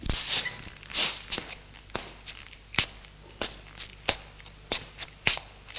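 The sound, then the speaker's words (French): Footsteps of a woman walking: a steady run of many sharp, fairly loud steps at an even, unhurried pace, with no talk. “Elle se lève et marche en parlant.”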